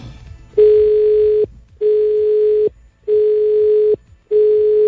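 Telephone call line tone: long, steady, mid-pitched beeps about a second each, repeating evenly with short silent gaps, preceded by a faint low murmur.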